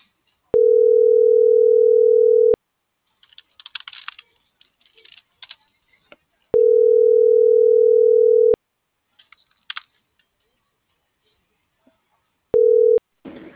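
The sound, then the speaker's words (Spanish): Telephone ringback tone sounds while a call is being dialed: a steady mid-pitched tone in two-second bursts separated by long pauses. There are two full bursts and a short third one that is cut off, with faint clicks in between. “Ya le estoy marcando.”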